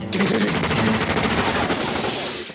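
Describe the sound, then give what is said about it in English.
Dense gunfire from a film shootout rattles without a break, a rapid and loud volley of many shots that eases slightly only at the very end. “All the shooting.”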